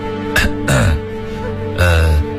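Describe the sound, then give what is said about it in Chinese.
A man clears his throat with a couple of rough, short coughs to get someone's attention. The bursts are loud and stand alone, with no talk between them. “沈提奇又站到建文身边，咳嗽两声引起对方的注意”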